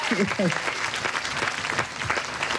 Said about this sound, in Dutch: die gaan gewoon weer even klappen